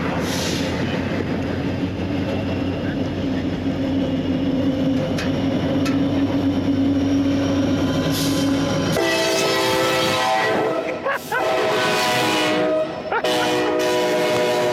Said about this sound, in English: going to get a shot of the freight train approaching the bridge, and I'm going to get a shot of it disappearing back into the tunnel